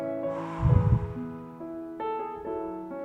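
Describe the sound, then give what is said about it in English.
A deep breath in and let go during an ordination ceremony: one short, rushing breath swells and fades over a sustained tonal background that shifts through a few held pitches. “take a deep breath in. And let it go.”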